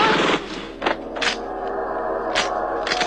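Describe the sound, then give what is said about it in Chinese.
Gunfire and explosions in a drama shootout scene: a dense, continuous roar of noise broken by several sharp cracking bursts, with no voices. “顿时枪声大作，爆炸迭起。”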